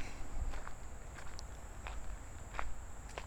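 Quick footsteps of someone walking fast, a series of soft crunching steps at a brisk pace over a steady, high, insect-like drone.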